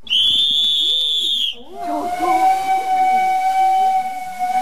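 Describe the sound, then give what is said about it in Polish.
A steam locomotive whistle on a 75-horsepower narrow-gauge park railway in Chorzów sounds one loud, high, steady blast. It then breaks into a lower, sustained whistle tone over hissing steam and rumbling. “Dzisiaj jeździ parowóz, jest to bardzo widowiskowe.”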